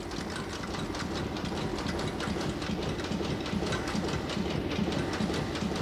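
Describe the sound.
A coin-minting press at the state mint in Pretoria, South Africa strikes Krugerrand gold coins. It makes a dense, rapid, rhythmic mechanical clatter of many repeated impacts over a steady machine rumble, fairly faint and continuous throughout.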